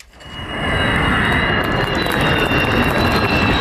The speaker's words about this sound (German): Februar 24, Jungfernflug des Tankkappenjägers Khan, made in Türkei. Nur das Triebwerk muss aus den USA zugekauft werden, noch.